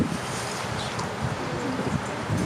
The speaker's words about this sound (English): Sorry, the wind's giving me a little issues here.